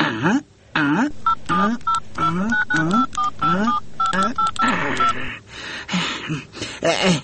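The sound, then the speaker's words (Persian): Keypad tones from dialing a telephone number sound as many short, evenly paced beeps, heard over a man's ongoing talk. “باش که دیگهش کجاست، یک زنگ بزنم.”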